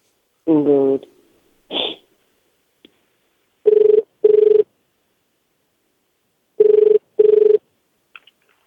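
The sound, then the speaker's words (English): Ringback tone of an outgoing international call from New York to Japan: two double rings, each a pair of short, steady buzzing tones, separated by a pause of silence, with a few brief blips before them. “All right, we're dialing.”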